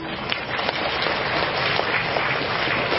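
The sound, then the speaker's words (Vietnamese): Buddhist followers at a temple gathering give a big round of applause, a dense, continuous wash of many hands clapping at a steady, fairly loud level with no pause. “Nhân đây rất mong các quý Phật tử dành một tràng vỗ tay thật lớn”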